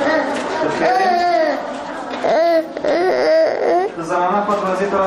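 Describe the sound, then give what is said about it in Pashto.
Young children's voices, crying and whimpering, from sick children aged two to fifteen, ill with measles and lying on beds in a provincial hospital ward; wavering, high-pitched cries and moans overlap continuously at steady loudness. “دا د هغه ماشومانو ژغونه دي چې له چوری ولسوالۍ څخه د ترنکوټ ولایتي روغتون ته راوړل شوی دی.”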